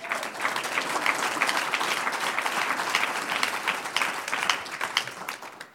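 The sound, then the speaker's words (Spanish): A church audience applauds with dense, steady clapping that lasts throughout at an even loudness, then tapers slightly at the end. “Un aplauso al que vive.”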